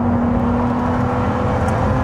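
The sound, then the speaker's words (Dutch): A Ferrari 296 Speciale sports car is driven, its engine a loud, continuous drone with a steady pitch and a whirring edge throughout. “Wouter test de Ferrari 296 Speciale.”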